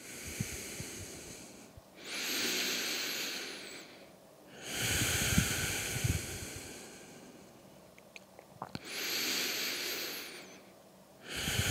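Deep breathing during a Vinyasa yoga forward stretch over the right leg: a few long, loud, airy breaths of several seconds each, separated by short quiet gaps, with no talk.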